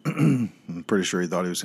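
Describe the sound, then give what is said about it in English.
Someone clears their throat in two rough, voiced rasps, loud and close together, with no other sound around them. “excuse me for clearing my throat there”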